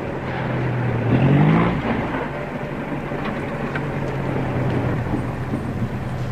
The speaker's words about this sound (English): Ah, here's a taxi. Taxi!